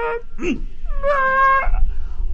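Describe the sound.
A small child cries in a brief, high, wavering wail that holds a steady pitch for about half a second, with a few short whimpering sounds just before it.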